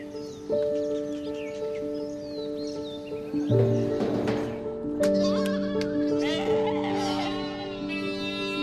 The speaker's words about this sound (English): Farm animals have already been moved to the island.